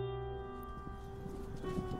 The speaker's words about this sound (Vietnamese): Lúc bấy giờ chợt có hàng loạt tiếng vó ngựa lộc cộc cùng với tiếng ngựa hí dừng lại trước cổng lớn của dinh.